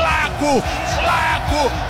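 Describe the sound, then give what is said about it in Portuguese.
A roaring crowd of Palmeiras fans cheers a second-half football goal by Flaco López. The loud, sustained roar has a voice shouting in rising and falling bursts over it. “Flaco Lopes, aos 37 minutos do segundo tempo, o torcedor do Palmeiras tem expressão máxima de alegria com o gol de Flaco.”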